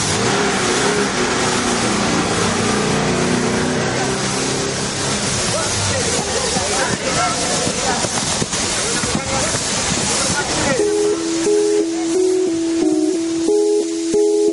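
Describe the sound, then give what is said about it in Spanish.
A car engine starts and revs, then the car pulls away from outside a gym's door, rumbling loudly with hiss. In the final seconds, sustained music tones take over. “Se dan un beso y se sube al coche. Antonio arranca y se marchan de la puerta del gimnasio.”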